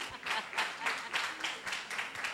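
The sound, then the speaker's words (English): Faint audience clapping for a contestant, soft applause rising and falling in regular pulsing swells. “Oh, please, yes, let's clap for the gentleman. Has the answer. Hey, people are not happy he's about to win. Please clap for him.”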